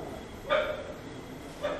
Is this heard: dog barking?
yes